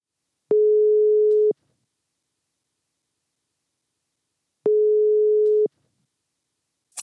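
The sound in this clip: Telephone ringing tone heard while placing a call: two even, mid-pitched electronic tones, each about a second long, separated by a few seconds of silence and heard with no voices.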